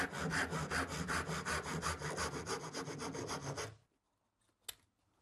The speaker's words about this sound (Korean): 결이 가고 있는 곳을 끊어서 오목한 곳에다가 톱자국을 내줍니다. 이걸 보통 릴리프 컷이라고 얘기하는데